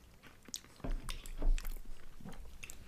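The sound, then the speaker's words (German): Biting into and chewing a food with Nutella inside: a few soft crunches and moist chewing sounds, fairly faint, with no talk. “Ich würde sagen, wir probieren mal. Ja, okay, ich probiere.”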